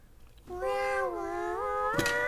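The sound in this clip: A kitten meows once in a long, drawn-out call, its pitch dipping in the middle and rising again toward the end, loud against a quiet background.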